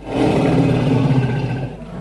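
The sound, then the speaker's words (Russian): An adult lioness roars in one loud, rough, sustained growl lasting about two seconds, heard alone with no voices. “Это рык взрослой, зрелой львицы, уже знающей, что к чему.”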